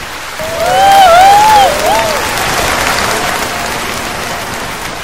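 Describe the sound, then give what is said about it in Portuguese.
Audience applause on a game show, a dense, steady wash of clapping that swells early and then holds at an even level, with a few brief high whistles near the start. “Quem vai ganhar pontos é o público! Que vai fazer muitos aplausos.”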